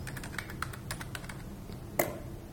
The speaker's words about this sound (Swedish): Och här skriver du ditt användarnamn och ditt lösenord.